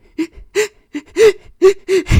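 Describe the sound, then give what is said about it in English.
A voice imitating a woman sobbing, with seven short, gasping, whimpering sobs in a steady halting rhythm, loud and alone. “As briefing went on, she was like, she's like sobbing.”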